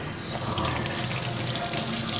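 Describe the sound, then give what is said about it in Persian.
Cold water runs from a tap over a burn in a steady, continuous splashing stream, loud and unbroken, with no voices. “بیم بگیم زیر آب سرد.”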